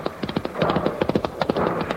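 A horse's hooves clip-clop as it pulls a car in a race against an early steam locomotive: many crisp, regular clopping taps at a steady trotting pace, moderately loud and alone.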